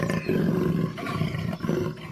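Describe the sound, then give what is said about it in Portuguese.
A jaguar roars in a few rough, powerful bursts, each a low throaty rumble with short pauses between them. No voices are heard. “tantas vezes que a onça passou da impaciência ao desespero e depois à fúria e esturrou.”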